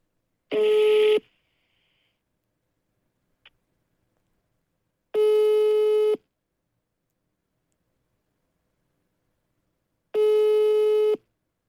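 A telephone call rings out unanswered: three steady, clear ringback tones, each about a second long and spaced about five seconds apart, with a faint click in the first silent gap.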